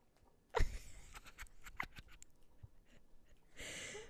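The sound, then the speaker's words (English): A cat moves about and scratches on carpet: faint rustling and scraping with a sharper scuffle near the start and a longer, steadier scratch toward the end. “Sorry, ignore the carpet ASMR. I'm trying to get my cat trying to prevent him from pulling the TV down on top of himself.”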